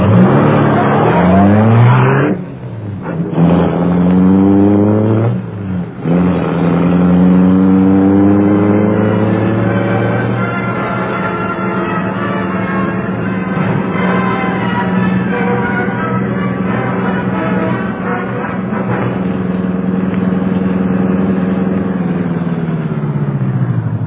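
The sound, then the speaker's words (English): The engine of the Black Beauty car roars to life with a few revving sweeps, then settles into a loud, sustained roar as the car speeds away, with no voices. “Britt Reed pressed a button. The great car roared into life. A section of the wall in front raised automatically, then closed as the gleaming Black Beauty sped into the darkness.”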